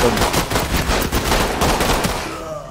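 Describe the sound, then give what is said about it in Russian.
Sustained gunfire from a video game: a dense, loud, continuous stream of rapid shots, like automatic weapons fire, holding steady before easing slightly at the end. “У вас патроны, кстати, закончатся, если вы так палить будете.”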